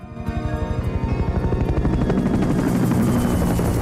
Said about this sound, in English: As the army helicopter swoops away overhead